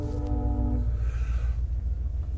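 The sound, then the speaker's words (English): A train passes with a steady low rumble. A brief horn-like tone sounds at the start, and no one talks. “And we'll have the usual train come by.”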